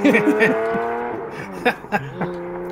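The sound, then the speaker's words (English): A Lamborghini engine drones in a driving video game, its layered harmonic tone sliding slowly lower, with a few short, sharp bursts of sound in the latter half. “I'm in the Lamborghini. I'm ready. There we go. You're lucky I didn't start driving it for you.”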